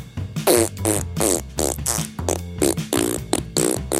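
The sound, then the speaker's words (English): A voice imitates a T-Rex fart with many low, blubbery, sputtering bursts in quick, uneven succession, loud and rasping, each burst a wet, flapping vocal raspberry. “This is how I think a T-Rex fart sounds like.”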